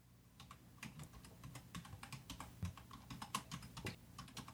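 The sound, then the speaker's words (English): Rapid keystrokes on a computer keyboard as login credentials are typed into fields. Many quick, uneven clicks run steadily throughout, alone with no voices. “Now it takes you into the fields where you once again type in your credentials.”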